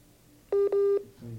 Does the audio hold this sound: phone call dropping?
yes